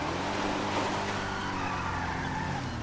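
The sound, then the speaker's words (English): Engine and road roar of a speeding car, a Phoenix, on Interstate 1 in the LSPDFR police game: a loud, steady drone with a tonal engine hum and no voices. “Dispatch, we're going to have a speeding vehicle. South Interstate 1. Looks to be a Phoenix. We're catching up to it right now.”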